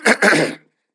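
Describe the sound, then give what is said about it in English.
A short, raspy throat-clearing by a preacher in the middle of a sermon. It comes as two quick gravelly pushes that cut off into silence, with no words spoken. “Y'all pardon me, I got a little frog in my throat.”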